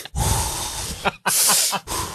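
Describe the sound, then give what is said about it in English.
A voice imitates deep, slow meditative breaths: a few heavy, airy, hissing inhales and exhales in long bursts separated by brief pauses, fairly loud and alone. “I hit it with like two deep ass meditative breaths to try to keep it coming.”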